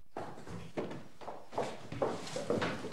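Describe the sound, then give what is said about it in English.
A woman's running footsteps as she hurries outside, several quick, moderately loud steps falling in a fairly even rhythm. “She looks out of the window and sees him still clutching onto the railings. She runs out.”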